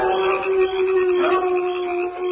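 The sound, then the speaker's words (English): Sustained, steady howling said to come from prairie dogs on the prairie: a long held cry with a clear tone, continuous and fairly loud throughout. “I say, will all those prairie dogs never stop howling? They're always howling.”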